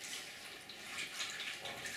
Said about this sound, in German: Und ich tue jetzt hier nochmal Wasser rein. Ich habe jetzt gerade gemerkt, dass es nicht so viel ist.